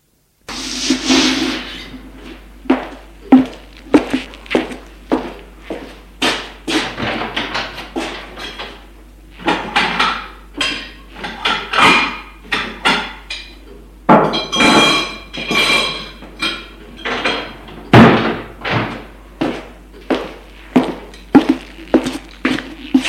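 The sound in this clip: Cutlery and dishes clink and clatter as they are taken from a sideboard to set the table for a meal. Many sharp knocks and chinks come in quick irregular bursts, with no voices.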